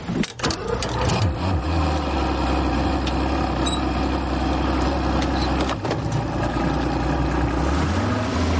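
A boat's engine starts and pulls away, opening with a rough burst of noise and then settling into a steady, low rumbling drone with a wash of noise over it.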